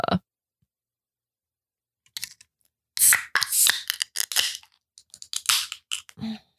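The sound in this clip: A beer being opened: a short burst at the start, then a pause, then a dense run of sharp clicks, scrapes and crackles through the last few seconds, with no talk.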